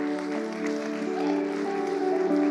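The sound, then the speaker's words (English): A church audience applauds in a steady, dense patter of many hands over sustained musical tones, the clapping swelling slightly toward the end. “Church, can we give a hand for those people that raised their hand?”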